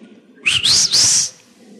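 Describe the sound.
A husband's whistle, a short two-part call: a quick rising slide, then a longer, steady high note, loud and clear and lasting under a second alone.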